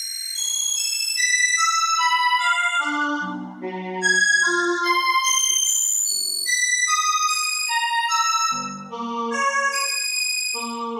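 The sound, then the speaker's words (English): Sonified tones from the changing brightness of the variable binary star Gamma Cassiopeiae: pure, bell-like electronic pitches stack into shifting high chords, with lower tones entering a few times, sounding continuously and alone. “The light that generated the sounds you are hearing traveled 550 light years to reach our world. Gamma Cassiopeia is a variable binary star, variable because its brightness varies.”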